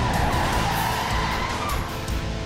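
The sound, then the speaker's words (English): Roaring engines and skidding tires of motorcycles tearing across a city in a video game, a loud, dense, continuous rush of motor noise with screeching tire squeal that holds steady throughout. “Batgirl on her Batblade motorcycle and Robin on his Redbird tear across Gotham City.”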